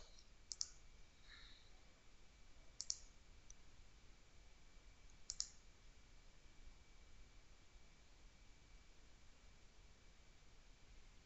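Three faint computer mouse clicks, spaced a couple of seconds apart, sound over a low steady hiss while synchronizing a library.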